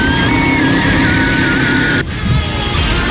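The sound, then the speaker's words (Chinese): A go-kart accelerates on a racing track at a motorsport theme park. Its loud, steady engine drone carries a high whine, and the engine note shifts abruptly about two-thirds of the way through. “去石家庄国际赛车运动主题公园开一圈卡丁车，油门一踩，肾上腺素直接拉满。”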